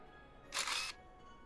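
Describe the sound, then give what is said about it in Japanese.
A single camera shutter fires while someone photographs cakes, a short, bright mechanical burst lasting under half a second against near silence. “あ、写真も撮っとかないと。”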